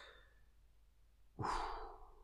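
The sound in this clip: A person sneezes once: a sudden loud burst breaks a quiet stretch, then trails off in a breathy rush.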